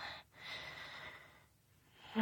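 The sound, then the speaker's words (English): Slow, soft breathing, with a long airy exhale, a pause, then a quieter, drawn-out breath, faint and steady throughout. “Now just breathe with me, slowly,”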